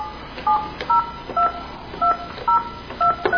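Touch-tone telephone dialing to call someone back after a dropped call: seven loud, clear dual-tone beeps at fairly even intervals.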